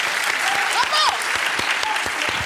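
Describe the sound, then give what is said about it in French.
Hand clapping in a room: a series of sharp, fairly regular claps over a steady noise bed, with a brief voice partway through. “Je t'applaudis.”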